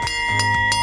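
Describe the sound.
Bell ringing to announce ice cream time during a summer tradition, a bright, sustained metallic tone struck a few quick times in under a second, loud and ringing on without any voices.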